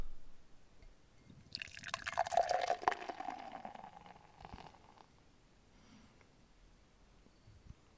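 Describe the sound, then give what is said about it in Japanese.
Mosaic Citra beer is poured in one faint, gurgling pour lasting a couple of seconds, which then trails off into near quiet. “ということで、注いでいきたいと思います。”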